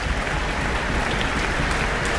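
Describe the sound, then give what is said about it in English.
Applause from a concert audience in a town hall, dense steady clapping that stays loud and even throughout, with no talk over it. “Jonathan Cohen just got an applause”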